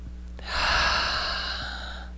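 A single long, deep breath drawn in slowly, a soft breathy rush that swells, peaks, and then gradually tapers off. It is heard alone, with no talking.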